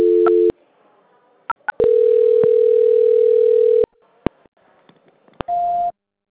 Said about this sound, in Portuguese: Aí aguarda só um instante em linha que eu estou transferindo a ligação, tá? Só um instante. Transferência.